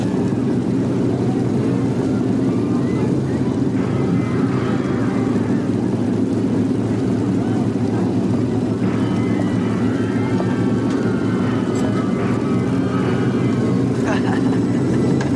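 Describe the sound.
Motorcycles riding off, their engines forming a loud, steady rumbling drone that holds without a break from start to finish.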